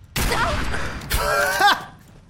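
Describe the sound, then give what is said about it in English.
Gunfire in a video game: two loud, sharp bursts of shooting about a second apart, each trailing into a rough, noisy decay. “I'm gonna shoot this person in the butt. A nice butt shot here.”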